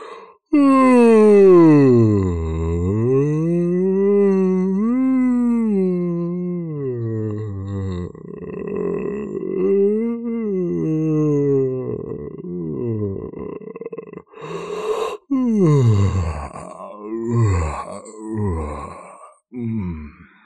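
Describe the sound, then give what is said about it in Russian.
A long, drawn-out human yawn in a living room in the morning, performed by a voice as a deep groaning moan whose pitch wavers down and up for many seconds before breaking into shorter breathy gasps. “И вот утром 11 января в гостиной послышался звук легендарно продолжительной зевоты.”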